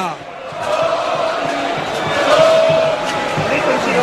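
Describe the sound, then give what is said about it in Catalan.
A football crowd at a Girona match chants the goalscorer's surname, a loud, sustained massed shout that swells around the middle and stays heavy to the end. “El públic li perdona tot i crida.”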